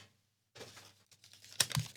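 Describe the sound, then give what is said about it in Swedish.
Faint, crisp rustling and light clicks as paper question slips are drawn and shuffled in a box. A sharper clatter of paper comes near the end, with no voices. “Du bara dra en fråga ur lådan. Det här också. Det här också, ja. Jag blandar lite.”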